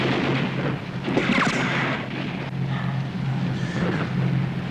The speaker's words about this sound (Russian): Командир артиллерии стреляет один.